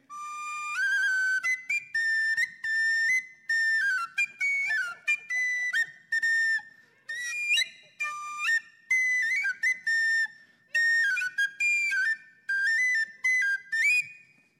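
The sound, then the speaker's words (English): An Irish whistle plays a lively melody alone: many short, bright, high-pitched notes in quick runs, broken by brief breaths between phrases. “one of my favorite things to do, and my kids love it, it's called the Irish whistle.”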